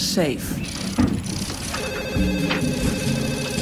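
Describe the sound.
A telephone rings with steady, high bell-like tones that sit over a busy mix of other low and mid-range sounds.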